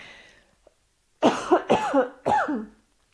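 A short run of loud, harsh coughs caused by a pollen allergy, coming in quick bursts after a brief quiet pause, each cough ending abruptly.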